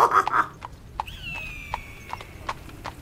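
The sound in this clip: Horse hooves clip-clop in a comedy sketch, many even, evenly spaced hoofbeats in a steady walking rhythm, with a thin high whistling tone sliding across the middle.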